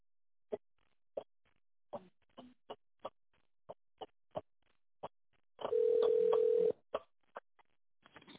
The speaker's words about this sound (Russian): Наберите добавочный номер абонента в тоновом режиме или дождитесь ответа секретаря.